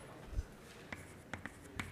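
Pen strokes of writing during a lecture on an algorithm: a few short, faint scratchy bursts spaced apart, with no talk.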